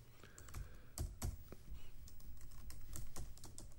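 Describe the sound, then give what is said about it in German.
Fast typing on a computer keyboard gives a run of crisp, uneven key clicks, with a few sharper taps near the start, over a faint background hiss. “Und ich tippe noch eben schnell was.”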